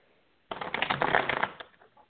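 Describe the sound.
A deck of cards is shuffled for a card reading: one dense, papery riffling burst lasting about a second, fading out quickly after a quiet start.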